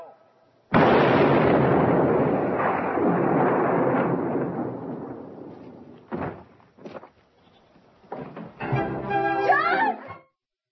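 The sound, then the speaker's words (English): A gunshot from a Western film, Judge Roy Bean (Paul Newman) shooting Bad Bob in the back: one loud sudden blast with a long rumbling decay lasting several seconds, followed by a few short vocal sounds. “At which point, Paul Newman, playing Judge Roy Bean, shoots Bad Bob, shoots a hole about the size of a softball right through him in the back.”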